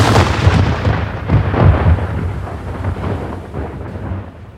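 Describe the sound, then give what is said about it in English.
A cannon firing a cannonball from a ship during a naval battle: a deep, rolling boom that rumbles loudly and steadily for several seconds before easing off slightly at the end. “he had his gunnery sergeant shoot off a cannonball to the rear of the Nino.”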